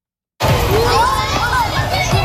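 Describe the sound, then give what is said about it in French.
Children playing during recess in a private school schoolyard on the first day of class: lively chatter, high shouts and calls from many young voices in a loud, continuous hubbub that begins after a brief silence. “C'est le premier jour de classe à l'école Saint-Edward de Winnipeg et c'est déjà l'heure de la récréation.”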